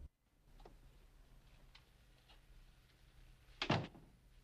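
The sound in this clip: A door closing in a dark room: one solid thud stands out loudly near the end, preceded by a few faint clicks and taps over a quiet background.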